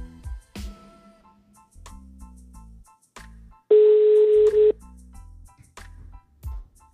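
An outgoing telephone call rings: a single steady, mid-pitched ringback tone lasting about a second stands out among other short tones and soft thumps.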